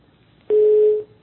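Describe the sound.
A telephone line tone from a failed listener call-in sounds as one steady, mid-pitched beep lasting about half a second, heard alone against a faint hiss.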